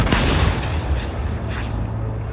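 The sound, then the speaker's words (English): A howitzer cannon loaded with powder, hay and grapeshot fires once with a heavy, loud boom at the very start. The blast trails into a long, rumbling roar that slowly fades. “Once again, you insert the powder and ram it in, shoving hay and the grapeshot into the muzzle. Primed. Fire!”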